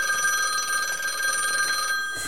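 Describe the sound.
A telephone rings with a bright, shrill, continuous bell tone that holds steady and then stops just before the end, with no talking over it.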